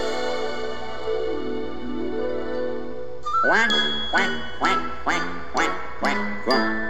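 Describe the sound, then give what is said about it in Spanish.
Duck-like quacks punctuate a children's song about ducks singing at a lagoon: a string of short, rhythmic quack bursts sounding over a sustained, tonal melody. “Mi fa mi re do mi cuac, cuac, cuac. Do mi re do re mi cuac, cuac, cuac. Allá en la laguna cantaban los patos.”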